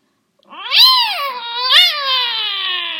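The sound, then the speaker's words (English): A cat lets out a loud, drawn-out yowl in its den. The tone rises and swells, dips, swells again briefly, then slides slowly downward in a long, wavering wail with no other sounds. “The cat, Raccoon, stood in his den and let out a loud yowl”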